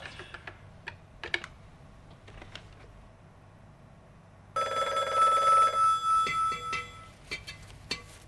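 A home telephone rings: a loud, bright, trilling bell lasting about a second and a half, between stretches of sparse, sharp clicking taps. No voices.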